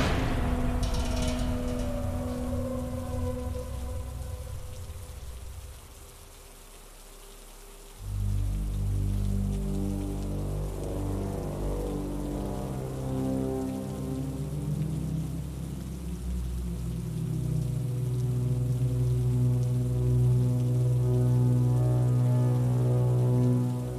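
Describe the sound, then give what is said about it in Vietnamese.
Rain falls steadily outside a school as classes end, a continuous patter on surfaces that thickens and grows fuller partway through, then keeps on evenly with no voices. “Tan học rồi mà chờ mãi mới hết mưa.”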